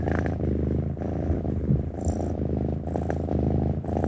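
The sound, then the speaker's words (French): A cat purring in a continuous low rumbling drone with a soft, regular pulse, steady in loudness throughout and heard alone without talk. “que cela était le ronron d'un chat, que ce ronron, il le reconnaissait bien, était le ronron du chat violet. C'est le ronron du chat violet.”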